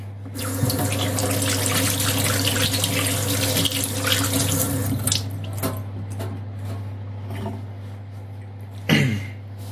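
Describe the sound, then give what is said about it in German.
Hands being washed under a running kitchen tap while baking: a steady rushing stream of water with a low hum underneath, then a brief louder splash near the end. “Mal kurz die Hände waschen.”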